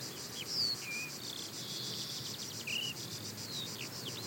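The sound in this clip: Insects chirp in a video game forest ambience, a steady high rhythmic pulsing trill running throughout, joined by a few brief sliding higher chirps, with no talking.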